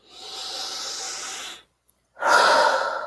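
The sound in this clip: A big, deep breath taken during a guided face-tapping exercise: a long, airy inhale, a brief silent pause, then a stronger breathy exhale.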